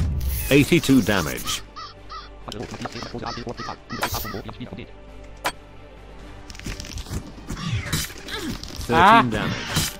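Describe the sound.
Ravens cawing in a video game: many loud, harsh caws in quick, irregular succession over busy game sounds.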